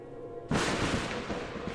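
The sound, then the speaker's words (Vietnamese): A lightning strike crashing through a house roof onto a home altar bursts in as an abrupt, explosive crack, followed by a dense, sustained roar of noise that fills the rest of the moment. “bỗng một tia sét từ trên trời giáng xuống, xuyên qua mái nhà đánh thẳng lên bàn thờ, gây ra một tiếng nổ rúng động”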